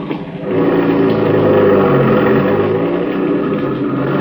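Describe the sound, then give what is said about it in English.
A car engine revs during a U-turn, swelling in the first half-second into a loud, steady droning hum with a low, buzzing tone that holds to the end. “Hope there wasn't no cop seen me make that U-turn.”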